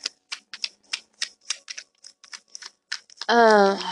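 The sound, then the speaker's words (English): Tarot cards being shuffled give a dozen or so crisp, papery slaps in an uneven rhythm, and a voice comes in at the end. “The cards. I'm waiting for them. I'm shuffling.”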